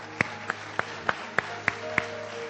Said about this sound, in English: And so this morning, I'm going to welcome Kenny Hallam to the City Church platform. Can we give Kenny a great big hand this morning?